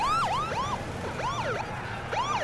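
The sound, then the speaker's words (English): An ambulance siren sounds as the vehicle drives up on a city street during riots, its wail sweeping up and down in quick, repeated arcs, loud and alone with no talk. “An unhoused woman looks up as the ambulance drives up.”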